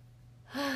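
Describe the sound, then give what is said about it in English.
A short, deep intake of breath, starting suddenly about halfway in and holding a breathy, slightly voiced tone for under half a second. “close your eyes, take a deep breath.”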